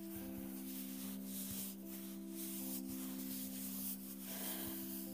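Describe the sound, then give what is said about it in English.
Hands rub hard over tense shoulders in a massage, giving soft repeated brushing strokes that swell and fade in an uneven rhythm, several passes in a row, quiet throughout. “And your shoulders. They feel so tense. Probably doesn't help that I'm rubbing them very hard.”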